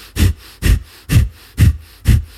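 Fast breathing exercise: five forceful, evenly spaced breaths, roughly one every half second, each a sharp airy rush with quiet gaps between.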